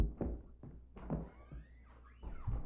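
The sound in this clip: Knocking on a door: a few dull, irregularly spaced thuds, fairly soft, with no talk over them.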